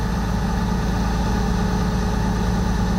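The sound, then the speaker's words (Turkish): A truck engine idles steadily, the vehicle loaded with briquettes on a ramp in a neighborhood of Yayladağ, Hatay: a continuous, even low rumble and drone with no marked change in pitch or loudness. “Kamyonun devrilme anı saniye saniye güvenlik kamerasına yansıdı. Kamyon rampayı çıkamadı, devrildi.”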